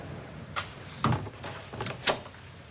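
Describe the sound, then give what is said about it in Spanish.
A sliding bathroom door closes and its latch is bolted, heard as a few short, sharp knocks and clicks spread across a quiet background. “La puerta es corredera. Cierra y echa el pestillo.”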